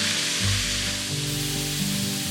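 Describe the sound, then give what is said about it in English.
Frozen corn kernels charring in a very hot, dry skillet give off a steady, even sizzle with fine crackling. It runs continuously through the whole stretch, with no talk. “It smells so nutty and I can already hear that char forming.”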